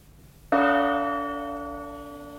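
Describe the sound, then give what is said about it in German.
A single radio time-signal gong marks the half hour: one loud strike that rings on as a bright, sustained tone and fades slowly, with no talk. “Wir geben Ihnen jetzt die genaue Zeit. Mit dem Gongschlag ist es 17.30 Uhr.”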